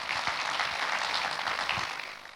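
Applause from an audience at an official ceremony as a provincial director is invited onto the stage: dense, even clapping that holds steady, then eases off toward the end.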